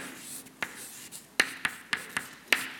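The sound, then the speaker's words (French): Writing on a board: a run of short, crisp scratchy strokes in an irregular rhythm, separated by quiet pauses, with no talking. “Donc je vais écrire E”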